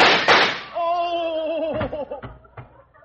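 Gunshots in a radio drama: a couple of sharp, loud bursts at the start, followed by a man's drawn-out groan and faint knocks.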